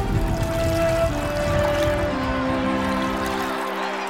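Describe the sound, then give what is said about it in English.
Hands being washed in water make a steady pouring, trickling splash that runs unbroken for the whole clip at a fairly even level. “See, all of you, I wash my hands in full view.”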